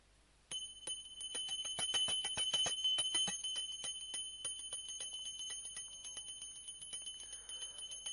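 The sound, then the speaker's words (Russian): A small hand bell rings during a devotional offering. Rapid, bright strikes come close together for the first few seconds, then settle into a quieter, sustained shimmering ring that fades slowly toward the end. “Ну, вот сейчас бери колокольчик и будем предлагать.”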